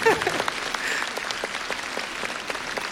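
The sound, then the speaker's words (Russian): Audience applause and an ovation at an international charity festival concert after a children's choir performance: dense, steady clapping from many hands with scattered sharper claps, fairly loud and unbroken for the whole stretch. “Это должны быть овации.”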